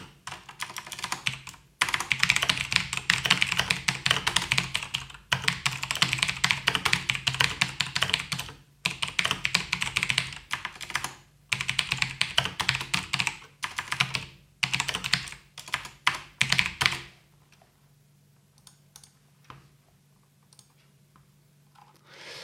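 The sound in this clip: Typing on a computer keyboard: rapid, crisp key clicks in several dense runs separated by brief pauses, ending in near silence.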